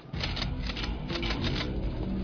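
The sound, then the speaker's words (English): Faint mechanical clicking and rattling as guns are handled and readied in a 1984 action film scene, a steady run of small metallic clicks with no voices. “Oh, look, he's getting some guns ready.”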